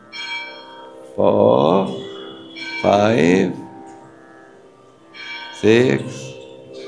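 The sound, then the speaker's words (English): A bell rings three loud, resonant tones, evenly spaced a couple of seconds apart, over a lingering tonal hum that carries between the strikes. “Yes, that was the bell.”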